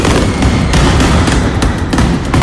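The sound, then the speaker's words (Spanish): Mascletà firecrackers fired at 2 pm in Plaza de los Luceros, Alicante, an unbroken barrage of loud, rapid-fire bangs and crackles merging into a dense, roaring wall of noise. “Así sonaba hace tan solo unos minutos la primera masqueta disparada en la Plaza de los Luceros a las 2 de la tarde.”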